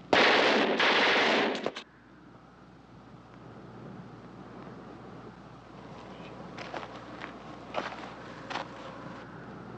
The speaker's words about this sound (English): They must be just testing the guns.